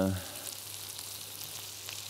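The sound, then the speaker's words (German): Sizzling of food being seared in olive oil in a pan: a steady crackling, hissing fry that continues alone for the whole stretch, with no talk. “Hier habe ich jetzt einfach Olivenöl genommen, da braten wir das Ganze an.”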